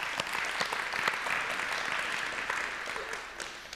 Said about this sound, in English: make some noise for those guys over there